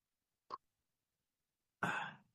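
Someone clears their throat, first with one short, faint catch and then, after a pause, with a longer, rougher rasp. Both sounds are quiet and heard alone against silence.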